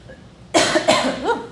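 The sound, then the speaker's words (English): Coughing fit from choking on coffee: a sudden loud, harsh burst followed by a few rough, throaty coughs in quick succession, heard alone without speech. “Choking on my coffee.”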